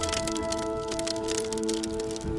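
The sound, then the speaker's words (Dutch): Ice on the frozen Scheldt river cracks and crackles as it breaks open and begins to melt: many sharp snaps and pops over a steady droning tone. “De bevroren schelde die zo belangrijk is voor de aanvoer van voedsel, breekt weer open en het ijs begint te smelten.”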